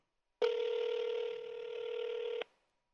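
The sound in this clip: A single telephone ring on an unanswered call: one steady electronic tone that holds for about two seconds, then cuts off into silence.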